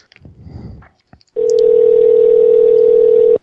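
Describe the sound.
A telephone dial tone sounds as a call is placed: soft handling noise and a few clicks, then a steady, loud single-pitch tone holding for about two seconds before cutting off abruptly.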